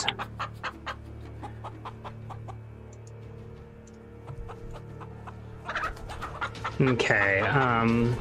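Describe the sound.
Chickens cluck in a game, a stream of many short, sharp clucks followed by a louder burst of squawking calls at the end.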